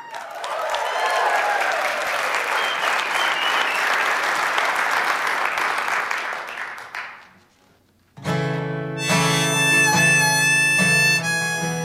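Audience applause welcoming a singer-songwriter on stage: a dense, steady wash of clapping that holds loudly, then thins and dies away before music with a strong pitched tone starts.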